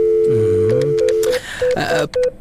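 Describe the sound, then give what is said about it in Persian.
A telephone call being dialed in an office: a steady tone, then a series of short electronic beeps, loud and mixed with other tonal sounds. “تو باش که به میستر کرتر یک زنگ بزنم”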